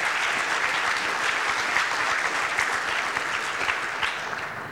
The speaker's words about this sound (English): Big applause for those guys as well.